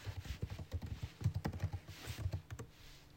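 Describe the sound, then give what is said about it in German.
Rapid typing on a computer keyboard while writing a message: many quick, irregular clicks and taps in a steady stream, with no voices. “Ich schreibe das kurz auf Teams.”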